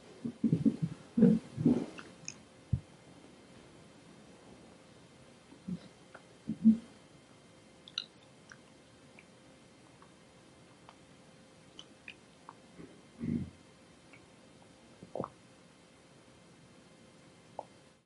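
Chewing food during Buddhist eating meditation, with soft moist mouth sounds clustered at the start and then only a few sparse, quiet chews and clicks over a long hush.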